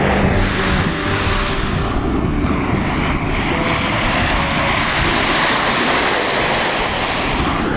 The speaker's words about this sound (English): can you hear that ocean? Probably sounds like shit. I'm betting on this phone. I made it to the beach out here,